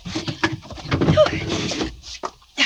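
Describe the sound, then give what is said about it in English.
A linen closet door being opened: a few quiet knocks and soft rubbing clatters, scattered and uneven, ending with a short sharper bump. “Open the linen closet.”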